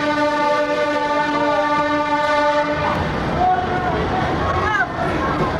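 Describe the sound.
An archive recording of a train arriving at Santa Apolónia station in Lisbon opens with a long, steady horn blast, then gives way to a loud rolling rumble and clatter of rail cars, with voices mixed in.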